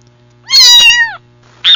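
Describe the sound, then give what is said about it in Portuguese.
A female cat meowing loudly: one long, tonal meow whose pitch bends gently downward, followed by a short, quick second call, over a faint steady low hum. “A gata! Olha a gata!”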